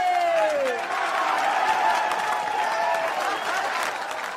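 Studio audience applause: a steady, loud wash of clapping and crowd noise. A brief falling whistle-like tone sounds at the start.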